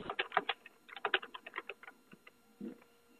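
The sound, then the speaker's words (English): Faint typing on a computer keyboard, with many quick, uneven key clicks rattling in bursts and then slowing to a few scattered taps. “Maybe you can read it. I sent... Can you type it?”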